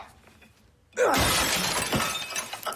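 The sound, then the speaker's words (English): A purple glass flower vase shatters as it is thrown down into a bathtub: quiet, then one sudden loud crash followed by scattered tinkling and clinking of broken glass. “It shatters. The man picks through the remains of the vase, selecting two pieces of broken glass.”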